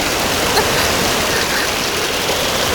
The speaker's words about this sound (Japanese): 何これ、 渦潮ってかハリケーンかな。